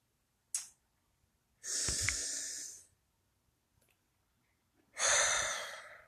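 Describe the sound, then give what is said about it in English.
Slow, deep breathing during a guided meditation: a brief sharp intake, then two long drawn breaths separated by quiet pauses. “Remember, find that comfortable position. Inhale. Exhale.”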